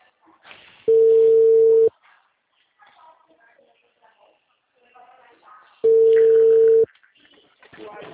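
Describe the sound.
Telephone ringback tone while a call connects: two steady, mid-pitched tones, each lasting about a second, separated by a long pause with only faint background noise.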